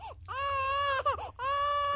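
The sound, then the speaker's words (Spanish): An infant cries in sustained, high wailing sobs: two long cries separated by a brief broken catch of breath, loud and alone with no talk over them. “Debe ser incómodo porque el niño está llorando.”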